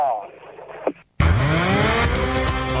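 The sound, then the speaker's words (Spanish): Race car engines starting at the start of a race: after a voice and a brief silence, a loud engine roar bursts in and revs upward, then holds as a dense, sustained mechanical drone. “Enciende Rovera, ya encendió también William Bull, el motor en marcha para Joaquín Cortina, que larga adelante”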